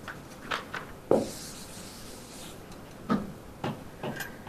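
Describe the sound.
Chalk or marker scratches on a board during a physics lecture: a few short scraping strokes and taps separated by quiet pauses, with no talking.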